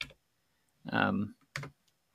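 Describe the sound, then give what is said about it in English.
Computer keyboard typing as a search is entered into Google: a few short bursts of clicking keys, fairly quiet. “I'm going to copy this. I'm going to type it into the good old Google for a dictionary.”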